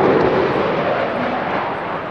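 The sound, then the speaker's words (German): Aircraft roaring at a centenary-of-aviation airshow in Emmen, a loud, broad, continuous engine roar that holds steady and eases off slightly, with no speech. “Krach haben die Flüger gemacht, die zu Emmen bei der Flugschau 100 Jahre Luftfahrt gestartet sind.”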